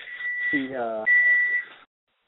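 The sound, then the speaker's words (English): A smoke detector sounding a sustained, high-pitched electronic tone that holds a steady pitch, briefly overlapped by a speaking voice before the tone cuts off. “somebody's fire or smoke detector going off? That's me, sorry.”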